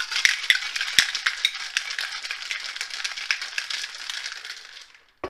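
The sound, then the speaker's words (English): A lidded container holding citrus drink mix and CBD oil is shaken, giving a steady, busy rattle of granules and liquid for several seconds before it stops abruptly with a small click. “Once that's all in, we put the lid on and shake her up.”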